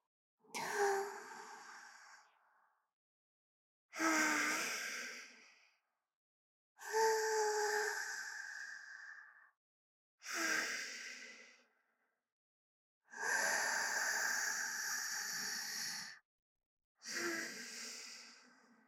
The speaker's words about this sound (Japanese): ゆっくり深呼吸して、私の息に合わせて。